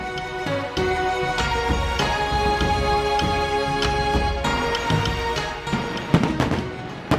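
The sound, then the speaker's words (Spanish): Fireworks at a Chinese New Year celebration crackle and pop continuously in many sharp bursts, with a denser, louder cluster of bangs near the end over a steady tonal background. “¡Mira allá! ¡Fuegos artificiales! No pueden faltar los fuegos artificiales en esta celebración”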